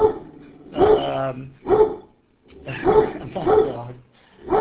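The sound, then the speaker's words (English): Several loud barks from a dog at a house in Sacramento, coming in uneven bursts with brief silent pauses between them, some drawn out and tonal, almost like whines. “And there goes our dog.”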